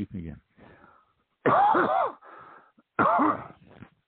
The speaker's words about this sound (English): But well, I'll tell you what, it gives you a cough.